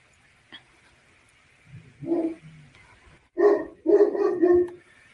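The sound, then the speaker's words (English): A dog barks in the background of a home setting: a few short barks in two bursts, the second louder and more sustained, over a faint steady high whine and no talk. “And I'm sorry if you guys hear my dog barking in the background.”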